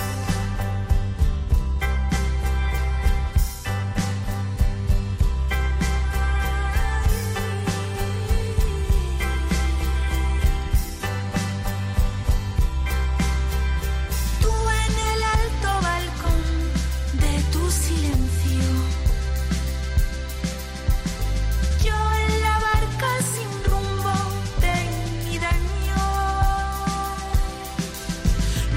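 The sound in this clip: Music from a project that sets poems to song plays continuously for about half a minute, with layered instruments and a steady rhythm.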